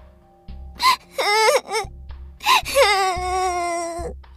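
A little girl crying in repeated wailing sobs, a run of rising and falling tonal cries with short catches of breath between them, ending in one long drawn-out wail.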